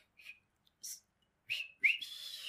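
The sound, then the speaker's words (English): A person whistles: a few short, high whistled notes separated by gaps, then a longer note that rises and holds steady. The whistling is fairly soft and heard alone, with no talk. “Yeah, I can't whistle like that.”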